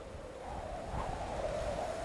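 Flowing water or wind: a steady, even rushing noise that swells slightly partway through and stays fairly faint, with no voices.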